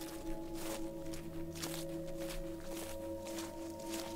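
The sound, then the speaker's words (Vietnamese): Slow, shuffling footsteps cross an earthen floor, making a few soft, even scraping steps over a steady low hum, all faint. “nghe có tiếng bước chân loạt xà loạt xoạt, cùng với tiếng hình như là người ta kéo cái gì đó lê trên nền đất vậy”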